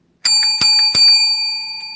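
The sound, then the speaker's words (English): A small hand bell rung to open a morning gathering, struck three times in quick succession, its bright, high ringing tones overlapping and then sustaining and slowly fading without further strikes. “we mostly start off with a bell. So here's the bell this morning.”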